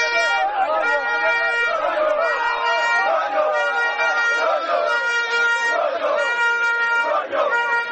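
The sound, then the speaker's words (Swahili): A crowd greeting the Zanzibar Heroes football team at Zanzibar's international airport, with dense chatter, cheering and raised voices that are lively and continuous throughout. “Naam, ilikuwa shangwe na sherehe za kila namna, na hivyo ndivyo mambo yalivyokuwa Zanzibar leo baada ya kurejea kwa timu ya Zanzibar Heroes.”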